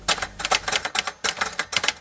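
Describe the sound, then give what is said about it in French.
An Olivetti typewriter clatters through many rapid keystrokes in loud, rhythmic bursts separated by short pauses. “C'est la machine à écrire avec laquelle Maurice a réalisé tout cet tapuscrit, en gros entre 1980 et ses dernières notes en”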